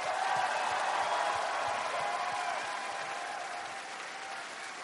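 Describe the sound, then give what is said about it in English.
An audience applauds in a dense, steady wash of clapping that stays loud and eases slightly toward the end. “So please, big round of applause for Adam.”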